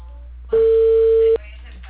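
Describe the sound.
A telephone ringback tone sounds while a call is being placed to a customer, one steady, even-pitched beep lasting under a second, starting and stopping abruptly against a low hum.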